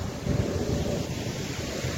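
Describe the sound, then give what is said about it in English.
Water spilling over a weir on an 18th-century canal beside a towpath: a steady, low, rushing roar with a dense, even wash of sound, unbroken across the two seconds and with no voices. “You see the water pouring in there. And over the other side, over the weir.”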